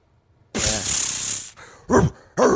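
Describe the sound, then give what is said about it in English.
A man imitates dog barking while squirting a super soaker water gun: a long, loud hissing spray burst comes first, followed by two short, voiced, bark-like yelps. “shooting a super soaker at you and then doing dog noises at you as you get shot with water”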